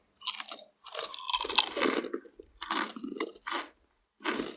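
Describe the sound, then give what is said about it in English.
Chitato Mee Goreng–flavoured potato chips crunch in several bursts of crisp chewing, one long stretch and then shorter crunches separated by brief pauses, with no talk over them. “Mee Goreng Potato Chips by Chitato, which I've happily got for us right here to start us off on our Mee Goreng journey as an appetizer. Let's give them a try.”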